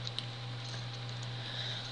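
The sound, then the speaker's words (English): Faint keyboard key clicks as shortcuts are pressed to build and run code, a few light taps over a steady low hum. “let me do a quick Control-Shift-B. And I think that should be everything I need, so I'm going to hit F5 to run it.”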